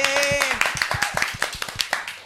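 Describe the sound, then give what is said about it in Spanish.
Live-show audience applause: after a brief spoken voice, many crisp, fairly regular hand claps ring out, sounding like a small group clapping. “aplauso.”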